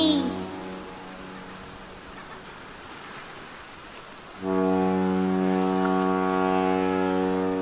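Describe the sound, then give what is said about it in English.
A big boat sounds its horn: a deep, harmonic blast starts abruptly partway through and holds steady and loud to the end over a constant wash of water-like noise, after the tail of an earlier horn tone fades at the start. “Oh, that's a big boat.”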